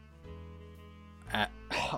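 Two rough bursts of throat clearing or coughing from a person with something caught in the throat follow a steady low hum; the second burst is slightly longer than the first.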